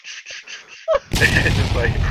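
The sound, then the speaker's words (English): Bomb explosion sound effect: after a stretch of quieter sound, a sudden loud booming blast cuts in and rolls on as a dense rumbling roar to the end. “All right, I'm throwing one of those bomb sound effects in right there, right after you finish that.”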